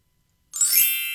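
A twinkling chime sound effect strikes once after a short silence, a bright shimmering cluster of high tones that rings on steadily to the end.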